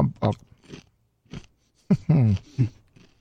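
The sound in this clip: Chewing on a whole mouthful of food, with short crunchy bursts of mastication mixed with a nearby voice.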